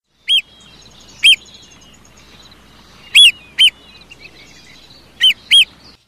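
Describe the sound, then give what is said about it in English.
Sharp, high-pitched calls of marbled murrelets, a seabird, ring out six times: two single calls, then two close pairs, each loud and clear over a faint, steady background. “Our mystery sound is the marbled murrelet.”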